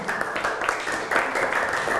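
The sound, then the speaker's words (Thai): Dense applause as students clap for a group of classmates who have just presented a project. The clapping stays steady and fairly loud for the whole span. “เก่งมากปรบมือให้เพื่อนกลุ่มหนึ่งค่ะ”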